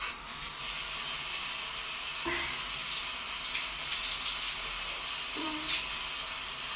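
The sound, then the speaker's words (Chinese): Steady running water from a tap while someone washes, just after a leaking water pipe was repaired; an even, continuous hiss fills the whole clip with no talking. “水管已经修好了。真的太谢谢你了，王先生。我就快洗好了，你等我一下。”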